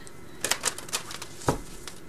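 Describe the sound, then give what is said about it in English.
Tarot cards being pulled from a deck produce a quick run of light, papery flicks and snaps at an irregular rhythm, mostly soft, with one sharper slap partway through and no voices. “Let's pull the cards and see.”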